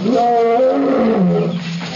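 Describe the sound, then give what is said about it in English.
A lion's roar: one long, rough, sustained growling call filling the whole clip, loud throughout and sinking slightly lower in pitch toward the end. “approaching rapidly the roar of the lion and the scent of the native boy”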